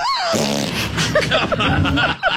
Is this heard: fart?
yes

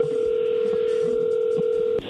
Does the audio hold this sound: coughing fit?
no

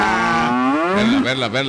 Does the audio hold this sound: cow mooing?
yes

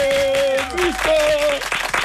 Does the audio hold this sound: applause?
yes

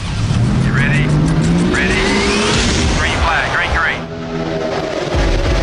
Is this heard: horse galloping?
no

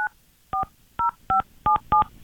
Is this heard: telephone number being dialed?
yes

